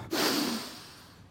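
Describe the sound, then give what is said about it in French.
One deep breath, a loud airy rush that swells quickly and then fades gradually over about a second, with no voices. “Le mal de tête est en train de passer. Je respire à fond.”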